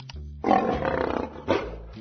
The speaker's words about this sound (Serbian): Lav, lično.